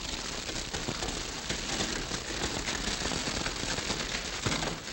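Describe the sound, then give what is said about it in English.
Fire crackling from a blaze set as a barrier too hot to cross, a dense steady mass of sharp pops and hiss that runs unbroken and fairly loud for the whole stretch, with no voices over it. “We better hold them off till this fire gets too hot to cross.”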